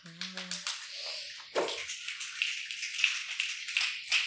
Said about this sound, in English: The snaps sound really satisfying. Yeah, the snapping sounds